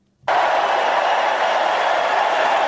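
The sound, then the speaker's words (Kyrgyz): Convention crowd applauding Joe Biden as he takes the stage, a loud, dense roar of clapping that bursts in after a moment of quiet and holds steady without letting up. “Сахнага чыккан Байденди чогулгандар алкыш айтып тосуп алышты.”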